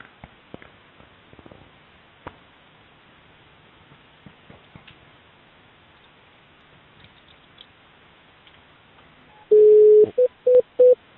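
Telephone line sounds as a number is dialed: faint scattered clicks, then near the end one longer steady tone followed by three short beeps.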